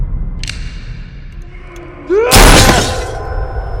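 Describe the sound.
A gunshot sends a bullet through a glass table: one sharp, loud burst followed by about a second of shattering glass that fades into a low hum.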